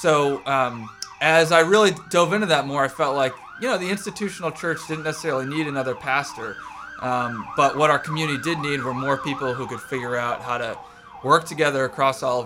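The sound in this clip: Fire truck siren passing on its way toward downtown Auburn: a loud, continuous wail that rises and falls repeatedly while someone talks steadily over it.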